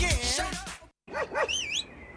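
Dog barking in a local radio public-service spot: after a busy burst of sound and a short silence, two short, bending barks and then a higher whining yelp.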